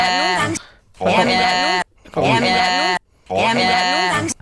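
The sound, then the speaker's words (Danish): A sheep bleating four times, each call long, loud and wavering with a nasal, quavering tone, separated by brief quiet pauses. “så kan du faktisk høre, der er et får lige i starten. Prøv at høre.”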